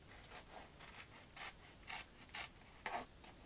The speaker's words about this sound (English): We'll cut these out first